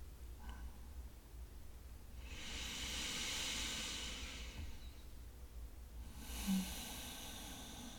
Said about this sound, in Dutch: Maar ondertussen gaan we nu eventjes een keertje heel diep ademhalen.